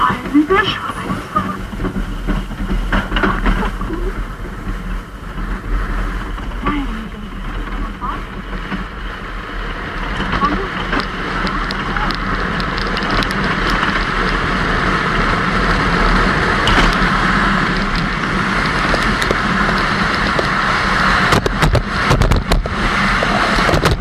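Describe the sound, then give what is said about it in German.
A bobsleigh taxi ride down the Königssee bobsled track gives a continuous rushing roar and rumble that builds slightly over time, with wind buffeting throughout. “die Rennbob-Taxifahrt am Königssee”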